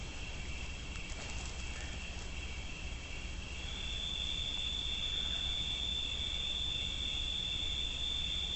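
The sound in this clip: Crickets chirp in a continuous, high-pitched shimmering trill that runs unbroken throughout and grows a little stronger and clearer partway through, with no voices.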